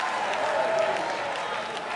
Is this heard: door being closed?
no